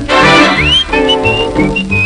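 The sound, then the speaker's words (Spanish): Whistling carries a short melody over a loud musical backing in a song, with one rising slide followed by several held and gliding notes. “Mi chiquita yo le chiflaba”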